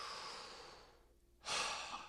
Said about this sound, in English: We'll just do 5 more breaths, each breath a little bit more powerful than the last.